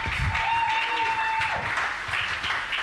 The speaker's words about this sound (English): Please put your hands together for these amazing panelists.